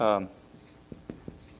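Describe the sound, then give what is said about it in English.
Faint scratches of handwriting, a few short pen strokes, after a brief stretch of speech. “You know what? I'll just write that down so that you can kind of see that.”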